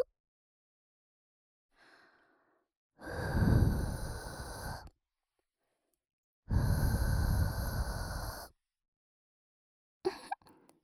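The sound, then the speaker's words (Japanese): Long, breathy blows of air into an ear to clear away fine dirt: two sustained rushes of air, each about two seconds, with a faint short puff before them and a brief one at the end. “ふうふうして細かい汚れを吹き飛ばすのが最後の仕上げなので。”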